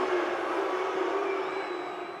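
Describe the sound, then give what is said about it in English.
Crowd booing a Chicago-born hometown player as he jogs onto an NBA court: a loud, sustained, steady roar of low, drawn-out voices that fades slightly toward the end. “They're booing him.”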